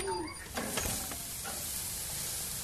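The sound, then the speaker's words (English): Beef burger patties sizzle on a grill with a faint, steady hiss and crackle that continues evenly throughout. “It's burger night at our house, so I'm headed out to put a few patties on the grill.”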